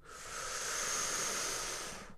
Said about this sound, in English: Maybe taking a breath through your mouth.